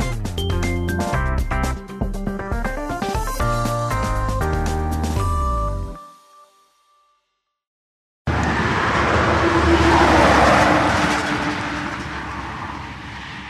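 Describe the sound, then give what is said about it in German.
Sparse traffic rolls along an old tree-lined avenue toward the Baltic Sea in Poland, a broad, steady rush of a passing vehicle that swells in loudness, after a short musical jingle and a moment of silence. “Über eine alte Alleenstraße rollt spärlich der Verkehr Richtung Ostsee.”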